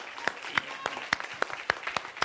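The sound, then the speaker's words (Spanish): A church audience applauds in steady rhythmic clapping, sharp claps at an even beat over a dense wash of hands, moderately loud throughout. “Que le va a dar un aplauso. You're going to give him an applause.”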